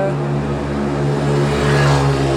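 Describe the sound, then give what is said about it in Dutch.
Small moped engines drone steadily as riders circle laps uphill, a continuous buzzing hum with even loudness throughout and a slight swell toward the end. “Houd niet op met die brommetjes hier. Ik weet niet wat dat is, maar goed. Ja. Ze doen het erom.”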